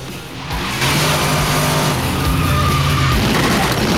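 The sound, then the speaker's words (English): Tyres squeal and an engine roars as a red pickup truck careers around a corner onto a residential street; after a brief quieter start the loud, sustained skid and revving hold steady to the end. “Suddenly, a red pickup careers around the corner onto the residential street with a gang of armed heavies standing up in the back.”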